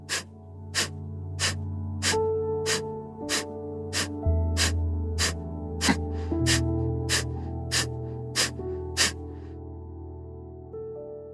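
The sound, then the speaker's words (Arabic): Sharp, forceful exhalations of a breathing exercise for energy, each breath pushed out by pulling the stomach in. They come in a rapid, steady, pulse-like series of short breathy bursts over a sustained musical background. “مع كل زفير عم ناخده عم ندفع بالمعدة لجوا زي النبض خلينا نبدأ شهيق”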